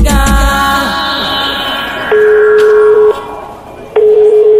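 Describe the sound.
A telephone call being placed, heard as the ringing tone: two steady mid-pitched tone bursts, each about a second long, separated by a gap. A fading musical passage comes before them.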